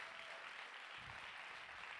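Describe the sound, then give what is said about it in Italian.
Faint, steady applause rises from an audience at a church sharing gathering, a thin, even patter of clapping that holds for the full two seconds with no voices over it. “Questo è un uomo fantastico, è vero? Vogliamo dargli un applauso,”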